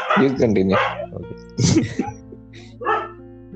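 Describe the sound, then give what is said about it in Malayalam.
A dog barks in a few short bursts, with people talking over and between the barks. “ഇവിടെ പട്ടിയുടെ ഒച്ച ശല്യം ഉണ്ട് ഇനി ഉണ്ടാവില്ല എന്ന് വിശ്വസിക്കാം”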